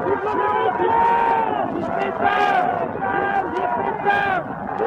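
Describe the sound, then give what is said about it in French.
Crowd cheering and shouting outside Notre-Dame cathedral after Mass, a dense, continuous roar of many voices with repeated swells of shouting throughout. “Et le cri monte, le cri du peuple, le cri de la nation”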